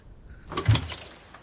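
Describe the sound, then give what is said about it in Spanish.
A door is opened at a house: one short clunk and rattle that swells and fades within a moment, fairly soft, with quiet before and after. “Poco después, va a casa de Thor y Haftis le abre la puerta.”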